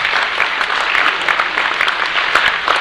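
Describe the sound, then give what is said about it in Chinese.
An audience applauds at a product presentation and health and beauty talk, with dense, steady clapping that holds at an even, fairly loud level throughout. “来给我一个掌声一下好不好”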